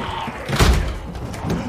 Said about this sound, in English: As Joss and Joseph hold back Zeds at a door, Gizagoo chops away limbs and Trailer forces it shut.